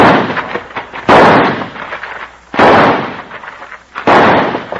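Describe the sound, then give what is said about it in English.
Gunshots fired at a man: loud sharp blasts, three clear shots, each trailing off in a long rumbling decay, with the fading tail of an earlier shot at the start and no talk. “Let me blast away at him to spoil his aim while you try to toss that gun through the window.”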